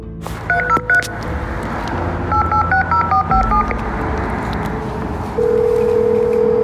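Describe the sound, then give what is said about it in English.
Keypad tones beep as a code is dialed on an outdoor call box at a residence: a few quick tones, then a longer run of several more over a steady background rumble, ending in a sustained tone. “Chris is staying, and I dial the code”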